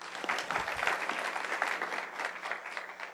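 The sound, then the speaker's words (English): An audience applauds graduates at a ceremony that included a prayer, with dense, steady clapping that carries on without a break at a fairly quiet level. “Thanks, guys. Let's hear it for them one more time.”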